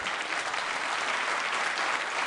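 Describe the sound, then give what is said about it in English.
Applause from an audience at a seasonal gathering with catering and brandy: dense, continuous clapping that holds at a steady, moderate level from start to finish. “Oh, you're applauding the brandy. Isn't that in the spirit of the season? Applauding the brandy.”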